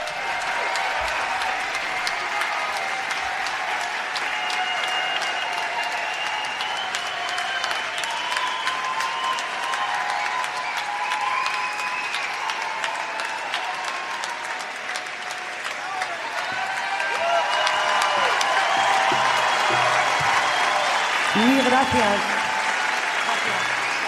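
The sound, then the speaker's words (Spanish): Audience applause at a live music performance: a long, sustained roar of clapping with a tonal musical line running through it, growing louder and fuller in the second half. “Un aplauso para Aurora Beltrán.”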